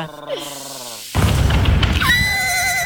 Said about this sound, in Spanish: Ah, ese es un ruido de caballo.